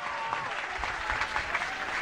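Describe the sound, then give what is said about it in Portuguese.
Applause for the teachers of Ceará, a steady, fairly faint patter of many hands clapping that lasts about two seconds. “eu queria pedir uma salva de palmas a todos os professores e professoras do Ceará.”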